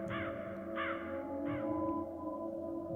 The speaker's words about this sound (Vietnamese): tiếng quạ lại vang lên thê thiết